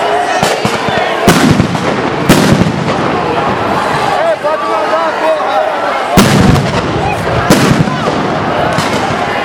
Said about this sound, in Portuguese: Eu jogo várias bombas uma vez só. Isso é de bomba. Bomba efeito moral.